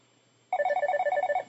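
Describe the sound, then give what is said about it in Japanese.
A telephone rings with one burst of rapid, bright electronic warbling pulses. It is loud and heard alone, and it stops after about a second. “電話かかってきた。留守電になるかな。”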